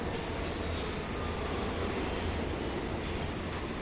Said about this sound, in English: The metro slows to a stop. The automatic doors open.